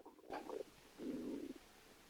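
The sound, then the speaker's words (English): A man's stomach rumbling at a tea table in a dining room, two low gurgling bursts with the second one longer and smoother, faint and alone. “As Brother turns the page, Allnut's stomach rumbles.”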